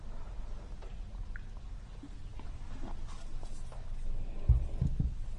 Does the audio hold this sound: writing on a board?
yes